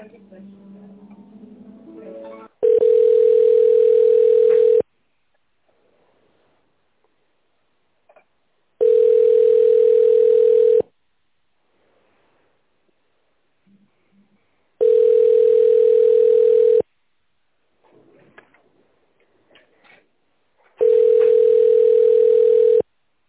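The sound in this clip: Telephone line tone plays while a call is being transferred: four long, steady beeps at one fixed pitch, each about two seconds, separated by longer stretches of near silence.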